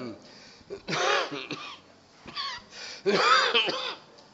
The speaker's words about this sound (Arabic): أهو الكحة دي